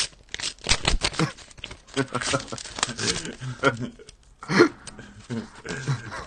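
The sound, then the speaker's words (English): A paper envelope is torn open and handled, with bursts of crisp tearing and crinkling and murmuring voices in between. “Tell me when you want to open up the envelope. Okay, here, I'll open it.”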